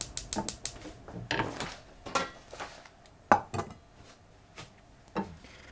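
Metal clanks and knocks of a frying pan set on the stove to melt butter for a bacon, chicken and potato gratin: a quick cluster of sharp hits at the start, then several separate, spaced knocks.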